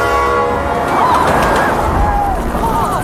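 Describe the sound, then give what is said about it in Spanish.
A runaway train roars past in a dense, steady rumble, with high squealing whines sliding over the noise throughout. “¿Y por qué perseguimos un tren fuera de control?”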